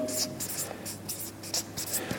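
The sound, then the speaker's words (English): Handwriting with a pen: scratchy strokes across paper come in quick bursts, many short marks with brief gaps between them, at a fairly soft level. “Yeah, hold on, I can't write that fast.”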